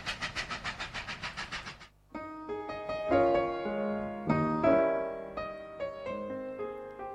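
A train running on rails, used as a radio sound effect, starts as a steady clickety-clack of evenly spaced beats. After about two seconds it gives way to sustained harmonic tones.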